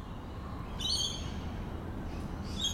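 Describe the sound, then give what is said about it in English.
Birds calling from the back veranda of a house in a leafy Sydney suburb: a couple of short bursts of high chirping calls rise over a steady, low ambient hum, with no voices. “This is what it sounds like on the back veranda of my parents' house in a leafy suburb of Sydney where I grew up.”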